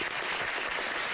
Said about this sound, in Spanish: Y los aplausos. ¡Bravo!